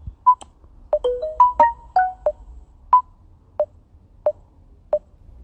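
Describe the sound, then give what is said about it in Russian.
Electronic beeps from the rhythm trainer in a tuner app, set to two sounding bars and one silent bar. Many short pitched clicks repeat in a steady pulse, and the early ones are joined by extra overlapping tones. “Это аудитор тюнер. Тренажер ритма. ВКЛ. 2/1. И вот он нам сообщает, что у нас получилось 2/1, то есть 2 такта со звуком, 1 без звука. Теперь его запускаем и слушаем, что по итогу.”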